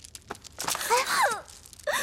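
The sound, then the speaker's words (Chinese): A woman cries in distress, starting with short breathy gasps and building into a wavering, sobbing wail that rises and falls in pitch, then ending with a brief sob. “别生气了啊，别哭了，公主您别哭了好吗？”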